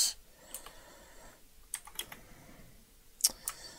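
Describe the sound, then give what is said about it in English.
Typing on a computer keyboard: faint, scattered clusters of quick key clicks come in a few short bursts over a low background hiss. “So I'll just type that on the side.”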